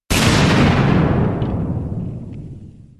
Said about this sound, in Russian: Грянул взрыв такой мощи, что пол под ногами зашатался, а со стен и потолка посыпалась пыль.